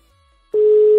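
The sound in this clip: A telephone tone sounds after a number is dialed. A single steady pitched beep starts abruptly after near-silence and holds unbroken to the end.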